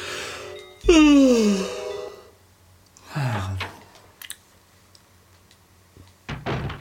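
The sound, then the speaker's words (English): A person yawning: a loud, drawn-out voiced yawn that falls in pitch, then a second shorter, lower groaning exhale, followed by a few faint clicks. “It was just me yawning.”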